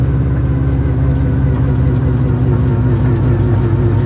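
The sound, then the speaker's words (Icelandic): A car with a turbocharged engine drives a short loop, giving a steady, even mid-pitched engine drone with a constant low rumble and no distinct revving. “við keyrum kannski smá hring hérna og förum síðan aðeins hérna”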